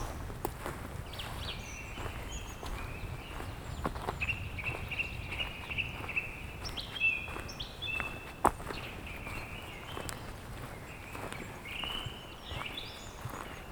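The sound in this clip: Lowland forest ambience in the Pyrenees, with birds chirping and calling in short high phrases over a steady rustling bed, while soft crunching footsteps and scattered light knocks run throughout.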